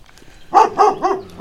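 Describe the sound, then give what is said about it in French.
A dog barking at a walker passing by on a street in Provins: three quick, fairly loud barks in a row after a brief quiet stretch, with no talk over them. “Où est le chien ? C'est juste qu'il y a un promeneur qui passe, c'est pour ça.”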